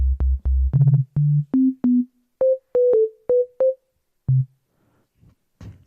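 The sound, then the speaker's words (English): A synthesized sine wave plays a run of short, pure electronic tones. Each begins with a click, and the notes step upward in pitch from low to higher before a single lower note ends the sequence. “If you want to make a sine wave, you can just clear everything. Right click, clear. Make a sine wave. Just remove the DC offset.”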